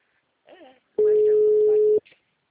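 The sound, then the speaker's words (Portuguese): A single steady ringback tone sounds on an outgoing telephone call, holding one even pitch for about a second, with a brief voice just before and a faint sound after. “Mas tá chamando agora, ó. É esse número aqui, eu liguei certo, ó.”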